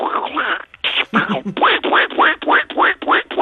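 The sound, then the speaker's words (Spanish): A voice imitates a cartoon duck quacking in a rapid, loud run of many raspy, nasal quacks with short gaps between them, with no other sound around it. “yo sé que algunos personajes los imitas muy bien, a ver qué tal el Pato Donald, cómo se te da. Vamos a intentarlo.”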